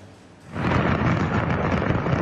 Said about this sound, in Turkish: Havai fişek fabrikasındaki patlama amatör kameraya böyle yansıdı.